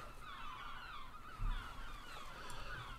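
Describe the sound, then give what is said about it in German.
Loud birds call in a continuous, overlapping chorus of wavering high-pitched cries within ship ambience at dusk, over a steady low rumble with no talk. “Das sind aber laute Vögel, die mache ich trotzdem noch mal ein bisschen leiser. So. Oh Gott, das sind laute Vögel.”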